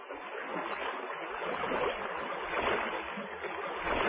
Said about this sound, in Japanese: さあ船を出しますぞ。もやい綱が解かれ船中へ投げ入れられる。